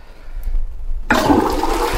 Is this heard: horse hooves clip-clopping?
no